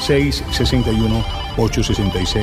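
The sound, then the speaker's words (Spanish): A telephone rings with an incoming call: a short electronic ringtone of quick, repeated melodic notes in two brisk bursts, loud and steady throughout. “Tengo por acá una nueva llamada.”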